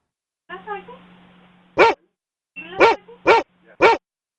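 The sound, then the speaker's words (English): Dogs bark: a whining yelp opens, then four short, sharp barks follow in quick succession over a low steady hum. “Oh my God, there's dogs in here. I have to go, ma'am. There's too many dogs in here. They're trying to bite me.”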